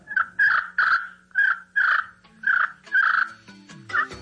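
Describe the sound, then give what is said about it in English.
Turkey yelps from a hand-held slate call worked in a circular motion with a vertical wooden striker: a steady series of about eight raspy, mid-pitched yelps with brief gaps between them. “It's a piece of stone or slate fashioned to fit the hand, and a wooden striker that's held vertically to the slate, and it's just worked in a circular back and forth motion and produces a turkey sound.”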